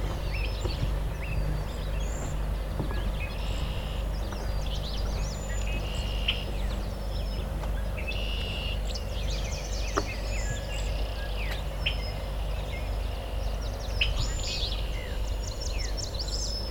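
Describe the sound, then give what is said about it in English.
Willow flycatcher calling, with several short, high, buzzy phrases repeated at irregular intervals over a steady low background rumble. “Willow flycatcher over here. Fitzbue.”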